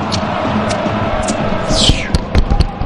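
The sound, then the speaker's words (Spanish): A fireworks sound effect plays over steady background noise. A falling whistle is followed by a few sharp bangs. “Beso, fuego artificial. Sí, ahí está, fuego artificial.”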